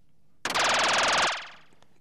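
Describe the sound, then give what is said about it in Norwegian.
Loud rapid burst of gunfire as a Luger pistol is fired: a dense, rattling volley with sharp onset that holds for under a second, then cuts off and decays, with no voices. “Lugeren avfyres. Røyken stiger opp av løpet.”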